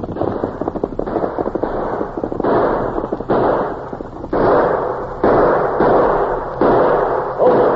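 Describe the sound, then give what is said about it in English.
Gunshots are fired in a shootout, a rapid series of loud, harsh reports that come one after another with short gaps, dense and forceful throughout. “The ornery polecats, they fired at me. That bullet went right through my hat.”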